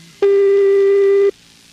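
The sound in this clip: A single telephone ringback tone sounds during a Brazilian prank call: one steady, unwavering buzz-like tone lasting about a second, heard alone with nothing else over it.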